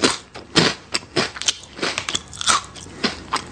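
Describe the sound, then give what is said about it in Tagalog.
Crunching bites of Camion Coconut Crackers, coconut-sprinkled biscuits, come as many loud, crisp bursts in an uneven rhythm, heard alone without talk. “O eto, ang paborito kong biscuit. Camion Coconut Crackers.”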